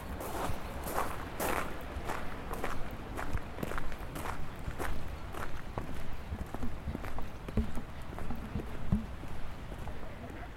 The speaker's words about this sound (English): Turn left at the bottom of the staircase. Now walk straight ahead.